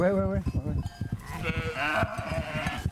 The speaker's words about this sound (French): Voilà, donc là, les brebis, les agneaux, tranquillou au milieu de leurs copines.